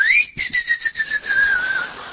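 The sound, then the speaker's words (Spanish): A pressure cooker whistles shrilly as steam escapes through its release valve. The high, piercing tone glides slowly downward and pulses in loudness throughout. “tiene el silbido, es justamente producido por el vapor que sale por la válvula de escape.”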